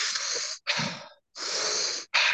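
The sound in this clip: Deep breaths drawn in and blown out through the mouth during a relaxation breathing exercise: a few loud, airy rushes of breath separated by brief pauses, with no talk over them.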